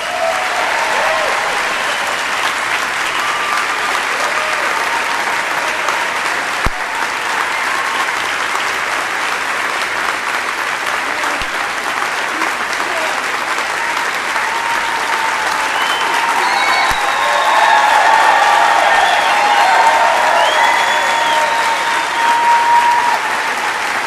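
An audience applauds to welcome Noam Chomsky, with dense, sustained clapping that continues without a break and swells a little louder in the second half.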